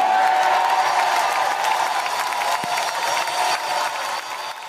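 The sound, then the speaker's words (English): A crowd in Guadalupe, Nuevo León, cheers and applauds loudly, with clapping and whoops in a sustained roar that drops off a little near the end. “The best part of that video actually is what got caught up at the end. The people of Guadalupe went crazy. They cheered and cheered and cheered and cheered and cheered.”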